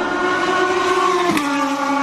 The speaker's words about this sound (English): I got a good spot right here to watch the cars go by. It's a straightaway